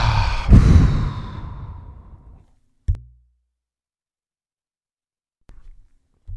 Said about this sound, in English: And one more exhale, big exhale.